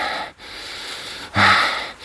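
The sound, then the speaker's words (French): Intense, heavy breathing during intimate moments: a few rough, airy breaths with short pauses between them, the last breath louder and harsher than the rest, with no words. “Ma respiration se fait intense.”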